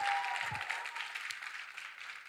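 Faint applause at a church gathering welcomes Pastor Joon Cho of Nanaimo's Native Victory Church to the stage. The clapping is soft and steady and tapers slightly toward the end.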